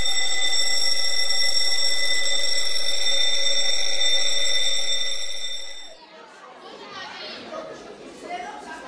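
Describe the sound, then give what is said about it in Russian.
A school bell rings in a bright, steady, sustained tone for about six seconds, then cuts off and gives way to children's chatter. “звенит звонок”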